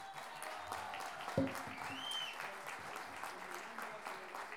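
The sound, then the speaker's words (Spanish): Audience applause for Chilean improvising folk poets at a sung-verse competition, a steady patter of many hands clapping at moderate level, with a voice faintly heard beneath it. “vamos a partir con un aplauso para los payadores y payadoras chilenas.”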